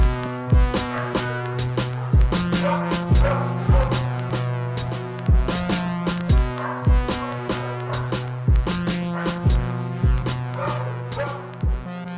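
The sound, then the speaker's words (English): Dogs barking, added as an atmospheric layer in a song's production: many sharp barks repeat in a rough rhythm over a sustained, tonal musical bed. “the dogs barking and that like atmospheric sound, that gets added after I know that these two verses are like super heavy”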